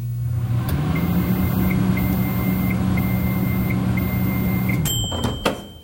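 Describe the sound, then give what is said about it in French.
A microwave oven runs with a steady low hum and a faint, regularly pulsing high tone. Near the end the hum stops, followed by a couple of sharp clicks. “Alors ce son, c'est un son de micro-ondes”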